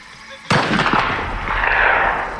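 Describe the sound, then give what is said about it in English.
Rifle shot in a cornfield: one sudden loud boom, then a long rolling echo that lingers and slowly fades. “My focus was broken from the loud boom of my father's rifle. The sound echoed and bounced off the corn stalks before ringing into the truck.”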